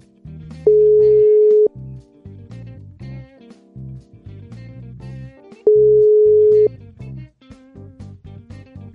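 Ringback tone of an outgoing telephone call: two steady single-pitch beeps, each about a second long and roughly four seconds apart, heard over background music.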